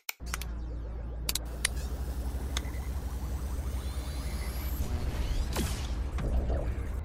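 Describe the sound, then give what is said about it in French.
A time machine sound effect starts up with a few sharp mechanical clicks and clunks, then settles into a steady low mechanical rumble with whooshing sweeps over it. “nous avons apporté notre propre machine à remonter dans le temps. Et oui, parce qu'il faut remonter en 1921 pour se mettre en condition. Donc, je mets tout de suite en marche la machine.”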